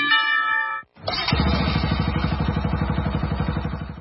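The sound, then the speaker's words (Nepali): An old Bajaj Pulsar motorcycle, freshly serviced at a dealer workshop, fires up after a short pause and settles into a loud, steady idle with evenly spaced low thumping pulses. “पुरानो Pulsar बाइकमा पनि यति राम्रो pickup र mileage कसरी, कहाँ गएर बनायौ?”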